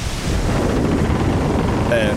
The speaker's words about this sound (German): Und als wir da gefilmt haben, da gab es einen krassen Sturm. Wirklich der krasseste Sturm der Welt.